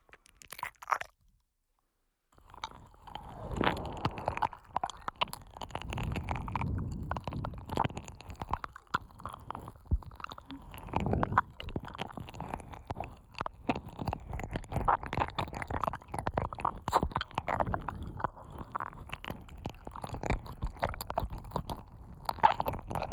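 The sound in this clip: Close, wet mouth sounds of eating and licking, with many soft crunches, squelches and slurps in an uneven rhythm. They start after a brief quiet opening.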